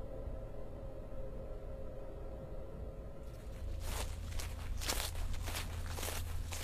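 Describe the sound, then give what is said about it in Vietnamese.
Human footsteps fall on grass close beside a wall outside, a soft series of rustling steps rising out of a steady hiss partway through. They are faint, unhurried, and no one speaks. “Ông vừa phát hiện hình như ở bên ngoài loáng thoáng ông nghe tiếng bước chân người.”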